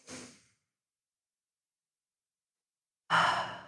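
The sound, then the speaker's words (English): During a mindful breathing exercise, a person takes a deep, slow breath. Two soft, airy breath sounds are separated by a long stretch of near silence, and the second is fuller and louder. “So right now, we can just mindfully breathe. Let's do it. Go ahead and inhale.”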